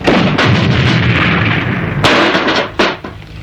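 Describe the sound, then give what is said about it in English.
A grenade launcher on a multi-caliber gun with a built-in automatic rifle fires loud, booming blasts: a few sharp reports punch through a continuous roaring rumble, with no voices. “This is a multi-caliber gun with a built-in radio, automatic rifle, and this is a grenade launcher,”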